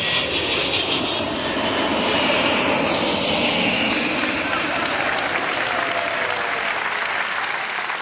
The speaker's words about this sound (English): the borough of Richmond is under the flight path of jet aircraft as they come into land. You'd think that at times the noise must be unbearable